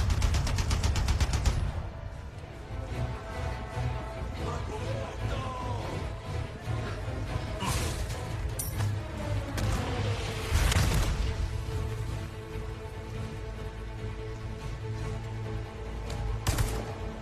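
Rapid gunfire from an anti-aircraft turret in the video game Resident Evil 4 Remake opens with a fast burst of shots. A dense, continuous roar of battle noise follows, with a few sharper bursts later.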